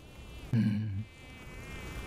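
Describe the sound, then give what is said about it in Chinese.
Flies buzzing: a short, louder droning buzz rises out of a faint background hum for about half a second, then fades back. “你说这些死苍蝇是真该感谢你啊，四面八方的嗡嗡嗡的飞过来下蛋，人死了苍蝇生喽”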